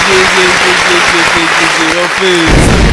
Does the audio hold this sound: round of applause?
yes